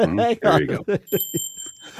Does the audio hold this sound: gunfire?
no